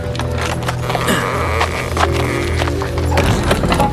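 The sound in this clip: Hooves of a horse pulling a carriage clip-clop in a steady, loud rhythm over a dense, continuous rumbling background.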